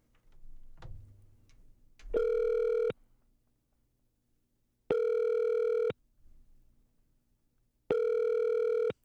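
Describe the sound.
Telephone ringing tone heard while placing a video call: three steady, evenly spaced buzzing tone bursts of about a second each, separated by quiet pauses, with faint handling noises before the first.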